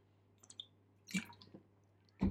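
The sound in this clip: Quick sip of water taken during a talk, heard as soft mouth clicks and a small wet slurp midway, then a louder, brief gulping sound at the very end, all fairly faint.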